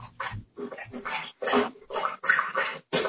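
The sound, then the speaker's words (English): A dog drinking water makes continuous wet, sloppy lapping and slurping with irregular pulses. The sound is fairly loud and heard on its own. “What is that noise? That's my dog drinking water.”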